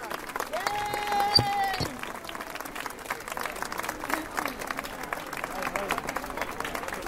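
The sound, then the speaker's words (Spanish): Applause from neighbours at a weekly gathering in support of public healthcare, honouring health centre workers. Steady, sustained clapping runs throughout with crowd voices mixed in. “un aplauso a los trabajadores y trabajadoras de este centro de salud.”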